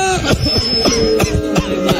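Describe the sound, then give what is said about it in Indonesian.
A person coughs repeatedly in a radio advertisement for herbal cough medicine, a quick run of several short, harsh, throaty bursts. “Baru main batuk tuh.”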